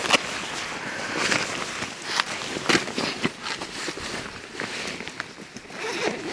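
A jacket is unzipped during a hike to get at a water bottle kept on the inside, with a few rasping zip pulls among rustling fabric and the shuffle of movement, fairly loud and without talk.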